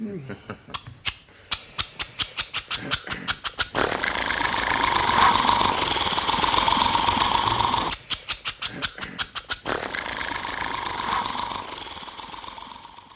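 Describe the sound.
An old car engine started without the crank: slow, rhythmic chugging pulses build until the motor catches into a steady idling drone. The chugging then returns briefly before the engine settles back into a continuous run.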